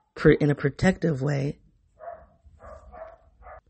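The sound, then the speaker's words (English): Dogs barking: a quick run of loud, strong barks, then a few softer, fainter yips. “I'm sorry, the dogs are barking. It's distracted me.”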